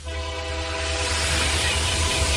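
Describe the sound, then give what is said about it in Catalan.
A Renfe train gives off a steady, loud, dense roar, with a faint tonal whine riding in the noise at first. “Abriendo la noche con Renfe a 2000 por 1000. El futuro viene en tren, el medio de comunicación del nuevo milenio.”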